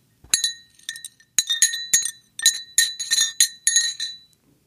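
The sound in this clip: Ice clinks against a glass of iced coffee in many bright, ringing chinks that come in irregular clusters, some single and some in quick runs. No voices are heard.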